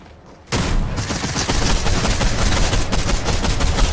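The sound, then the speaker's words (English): Video game gunfire bursts in suddenly after a brief quiet moment, then continues as loud, dense, rapid shooting that barely lets up. “Who just shot at me?”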